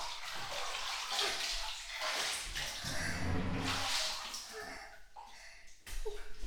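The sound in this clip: Bath water splashes and sloshes as someone's back is washed and rinsed in a tub, a continuous churning of water with voices talking over it.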